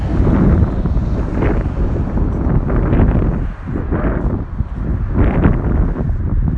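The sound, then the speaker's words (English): Wind blowing straight into a microphone outdoors makes a loud, low, blustery roar that swells and buffets in uneven gusts throughout, with no voices. “Just wondering which way to go so that the wind isn't so directly coming at me.”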